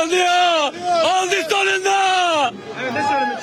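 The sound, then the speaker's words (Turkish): Football fans celebrating promotion chant and shout loudly together, their massed voices rising and falling in sustained, tuneful yells with brief pauses between phrases. “Davul ve zurna eşliğinde halay çeken taraftarlar ellerinde takımlarının bayraklarıyla tezahürat yaptı.”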